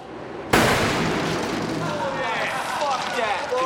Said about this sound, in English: this is the 460 Stingmore mine. Looks like it's gonna suck. It is, I promise. Fire in the hole!